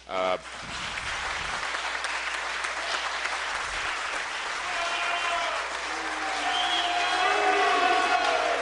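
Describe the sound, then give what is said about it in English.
House members applaud in a legislative chamber. The clapping is dense and steady from the start and swells louder toward the end, where crowd voices rise over it. “That is the sound of House members, at this point only Republicans since the Democrats have fled, applauding what Bosma had to say and then booing coming from the spectators in the chamber.”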